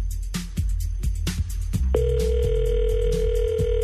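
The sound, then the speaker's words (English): A telephone dial tone sounds while someone is calling a general manager: several dull thumping clicks come first, then a steady, continuous low tone holds unbroken to the end. “Hold on for a second. Let's dial him up. And calling our general manager.”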